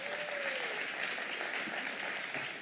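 A church audience applauds to welcome a new member, a dense, steady clapping from many hands that holds at an even level throughout.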